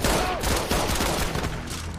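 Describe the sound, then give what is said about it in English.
Gunfire as two police officers turn and shoot at each other: a dense, rapid fusillade of shots that blurs into a continuous crackling roar. “The two cops turn to each other and fire.”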